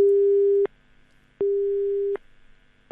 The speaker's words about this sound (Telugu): Call cut అయిపోయినట్టుంది.